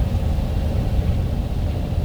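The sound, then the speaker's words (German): Engine rumble of a Volkswagen Beetle car driving: a steady, loud, low drone with a layer of hiss that holds even throughout. No voices are heard. “Als sie mit Bobs Käfer am nächsten Nachmittag dort eintrafen”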